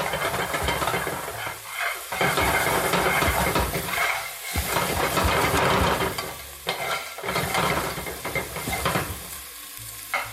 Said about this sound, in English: in Cantonese, we call this bao, which means to explode. So that's kind of what you're doing. You want to get a sort of like really intense heat on these aromatics, bring out their aroma.